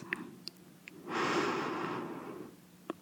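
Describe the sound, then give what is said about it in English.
A deep inhale through the nose during a guided breathing exercise. One long, airy breath swells and holds for over a second, then fades, with a few faint clicks around it. “Close your eyes and breathe with me. Inhale through your nose.”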